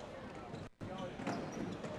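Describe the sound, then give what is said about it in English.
A basketball bounces during a high school game after a missed three-pointer hits the rim; the thuds are faint under steady court noise, with a short drop in level partway through. “This one's up and no good. Hit the rim, bounced twice, and now rebound Harbor Beach.”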